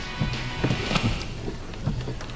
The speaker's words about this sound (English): Just walking in the rain.